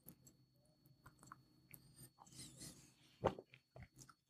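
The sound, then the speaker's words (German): A sip of a drink taken with soft, quiet mouth and swallowing noises, with one sharper gulp near the end. “Ich trinke jetzt erstmal noch einen Schluck.”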